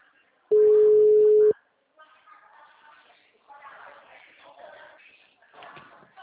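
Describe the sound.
A telephone busy tone after a dropped call sounds as one loud, steady tone for about a second, then a person starts talking.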